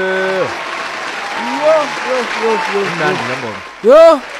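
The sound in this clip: Audience applause and cheering for a performer, a steady wash of clapping beneath a host's voice calling out, with a sharp loud whoop near the end.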